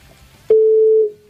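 One steady, mid-pitched ringback tone on a telephone call, held for about half a second and then cut off, over a faint background hiss.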